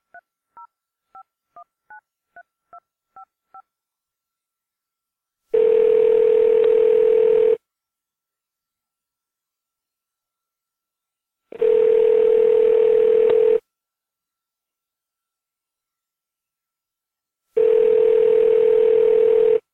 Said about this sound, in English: Hey, you've reached Craft Brewed Sports Drunk Dial line. Feel free to leave us a message with any trash talk, rants, info about your team, whatever beer you're drinking.